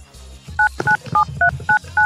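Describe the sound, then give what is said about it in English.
Telephone keypad tones dialing a meeting access code: six short dual-tone beeps, evenly spaced and clear, with a faint click between the early presses. “Please enter your access code or meeting number followed by the pound sign.”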